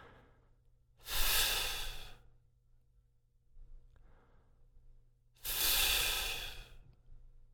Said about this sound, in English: As you inhale, release the contact between teeth and lip and let the air come rushing in. And then on the outward flow of breath, reconnect the f posture of lip and teeth.